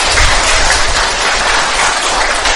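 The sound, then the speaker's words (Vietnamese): Loud audience clapping at a Buddhist gathering, a dense, continuous wash of many hands clapping at once, steady and forceful throughout. “Nghe nói ở lại giới ma mới vỗ tay mạnh vậy đó.”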